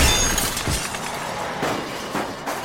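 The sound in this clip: Glass shattering as a gambling machine's painted glass face smashes onto a road: a loud crash at the start, followed by a few shorter noisy crunches and clinks of breaking glass.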